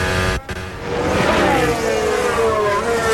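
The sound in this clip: A Mercedes Formula 1 car on medium compound tyres, on the first lap of a long run, screams past with a loud, sustained high-revving engine whine full of harmonics. There is a brief dip near the start, then a steady roar.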